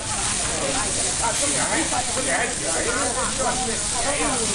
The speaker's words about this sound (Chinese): 让诸位社会名流爱不释口的，则是勇哥的招牌烤外脊筋。